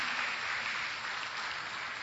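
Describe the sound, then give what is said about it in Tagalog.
Soft, continuous applause from an audience clapping to praise the Lord, a faint and even hiss of many hands with no distinct individual claps. “Palakpakan natin ang Panginoon. Hallelujah.”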